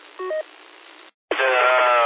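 Phone notification sound: a short pair of electronic beeps, a brief silence, then a bright, sustained tonal chime that holds steady to the end, with no voices.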